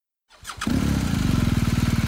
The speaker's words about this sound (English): I call it a boxer twin. That's BMW's name for it, but really, a flat twin would be the proper name. And this is, of course, the new 1250 GS.